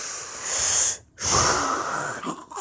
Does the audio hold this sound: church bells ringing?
no

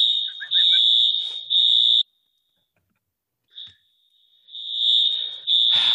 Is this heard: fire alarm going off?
yes

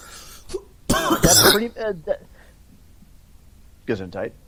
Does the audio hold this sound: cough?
yes

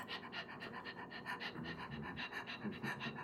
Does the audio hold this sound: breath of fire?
yes

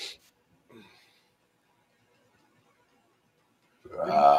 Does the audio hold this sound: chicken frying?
no

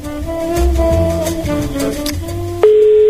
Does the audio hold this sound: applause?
no

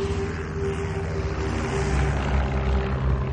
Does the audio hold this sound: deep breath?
no

